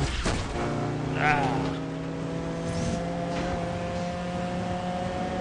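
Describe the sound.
Engines drone in a car race in the video game Blur. Steady, sustained tones hold an even pitch, with a brief louder surge near the start.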